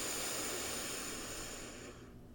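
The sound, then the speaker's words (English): A long, airy inhale drawn deeply through the nose during a guided breathing exercise produces a steady, broad hiss. It fades softly toward the end. “So inhale, breathe in through the nose, expand.”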